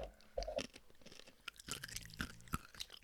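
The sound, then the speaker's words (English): Crunchy chomping on small pieces of Halloween candy, close and quiet, with many irregular bites and crackly crunches following one another in an uneven rhythm and no talk. “I'm chomping on little pieces. That's okay. Let's chomp.”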